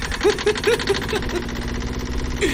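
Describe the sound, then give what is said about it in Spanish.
A tractor engine starting, cranking and catching into a rhythmic mechanical chugging with a steady run of regular pulses, heard alone at moderate loudness. “¡Arranca el tractor!”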